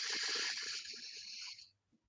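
Slow exhale during a guided breathing exercise, one long airy hiss that stays steady for over a second and then fades to near silence.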